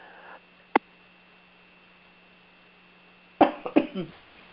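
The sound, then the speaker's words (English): A person coughs in a short burst of a few harsh coughs near the end. Before it there is a long, near-silent stretch with a faint low hum and one small click. “I'm taking in the kindness of that cough”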